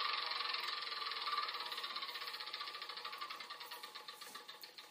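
A prize wheel spinning in a video game, heard as a faint run of rapid mechanical ticks whose clicks spread farther apart toward the end as the wheel slows.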